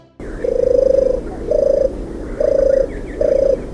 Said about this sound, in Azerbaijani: Qalan bircə qumru quşuydu. O, heç nəyə göz qoymurdu. Belə hey səfeh bağırtı ilə deyirdi.